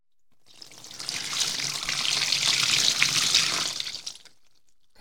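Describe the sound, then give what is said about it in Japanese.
Running water during hair washing: a steady rushing stream that swells in within the first half second, holds evenly for about four seconds, then tapers away, with no voices. “頭を洗ってすっきりすれば、すぐに目が覚めますよ。では、行きまーす。”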